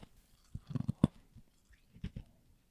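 Crunchy chewing and biting of ice right up against a microphone, a few sharp crackling bites in two short clusters separated by a quiet pause.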